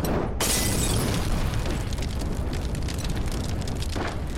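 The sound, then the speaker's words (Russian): Roaring burst of flame as a petrol bottle bomb ignites against a tank in a war film trench scene: a sharp onset, then a dense, sustained loud whoosh of fire, with a second burst near the end. “Шемякин запаливает и кидает бутылку с зажигательной смесью.”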